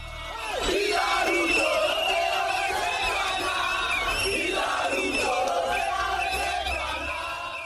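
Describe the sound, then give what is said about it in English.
Crowds of protesters shout in the streets of Nairobi, Kenya, during a Tuesday demonstration against a finance bill. Many voices roar loudly and continuously after a quick swell at the start. “That's the sound of displeased Kenyans in the streets of Nairobi on Tuesday. They are protesting the finance bill introduced in Parliament”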